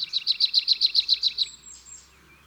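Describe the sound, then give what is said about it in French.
A marsh tit sings at a woodland edge: a rapid, even run of many repeated high, clear notes, followed by a faint, thin high call as the song ends. “En lisière des bois plutôt qu'en forêt, voici sa petite cousine, la mésange nonnette.”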